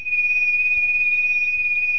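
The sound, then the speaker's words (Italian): A whistle sounds one steady, high-pitched tone that holds at an even pitch and loudness for about two seconds, alone with no other sounds. “Ecco un fischietto.”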